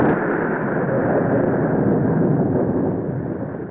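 Loud explosion-like sound effect: a sustained, broad roaring rumble that holds steady for several seconds and eases slightly at the end, with no voices over it.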